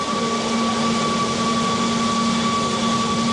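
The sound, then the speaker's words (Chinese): An electric vehicle charging station running as it starts up gives a steady electrical hum with a fan-like whir. A constant tonal whine holds even and unbroken throughout, with no talk. “现在充电桩你能听到一个明显启动的一个声音。 大家刚才能听到吗？就是明显有一个这个电启动的一个声音啊。”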